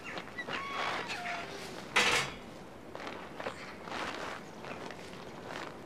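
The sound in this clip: Faint footsteps of people leaving a house and walking into a yard form a soft, uneven run of steps, with one sharper clatter standing out near the middle.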